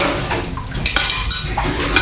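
Dishes are washed by hand, with cutlery and plates clattering in many quick, bright clinks and knocks over a steady wet background, with no voices.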